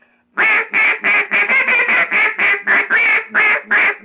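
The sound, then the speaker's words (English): Rapid series of many short, whiny, raspy quacks blown on a micro hen duck call imitating a young hen mallard, loud and steady, with no talk over them. “That's in the micro hen. That sounds like a young hen mallard.”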